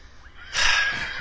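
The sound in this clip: A horse neighs in a stable: a single loud, breathy whinny bursts in about halfway through and holds to the end.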